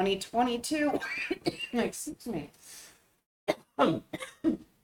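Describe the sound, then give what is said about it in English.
Coughing from someone who has just breathed in water: a few harsh, abrupt bursts that break up a man's speech, with the voice talking between and around them. “Excuse me. I breathed in some water as I started talking.”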